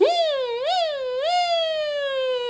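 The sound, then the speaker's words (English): A single voice imitating a siren as a nasal-resonance vocal exercise. It begins with a smooth upward sweep, adds two more rising-and-falling swoops, then settles into a long, slow downward glide, heard alone. “you can also try a series of siren sounds like this”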